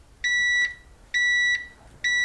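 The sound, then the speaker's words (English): A pressure cooker's electronic timer beeps at zero: three loud, steady, high-pitched tones, each about half a second long, evenly spaced with short gaps and no voices. “The timer on the pressure cooker has reached 0.”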